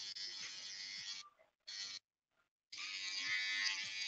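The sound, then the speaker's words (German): An electric shaver buzzes in the room: a steady, raspy motor drone that stops, returns for a brief burst, falls silent again, then runs continuously to the end. “Können Sie ein bisschen in ein anderes Zimmer gehen beim Rasieren?”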